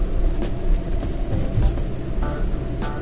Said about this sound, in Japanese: 今はうちの奥さんを迎えに車で走らせているところなんですけれども